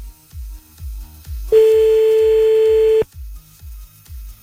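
Telephone sounds as a call is dialled back: a regular run of low pulses, broken once by a single loud, steady electronic tone of about a second and a half before the pulsing resumes.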